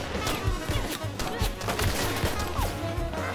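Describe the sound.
Gunfire in a Brazilian Portuguese dub of an animated scene: many sharp, rapid shots and crashing impacts in a dense, irregular volley that keeps going throughout.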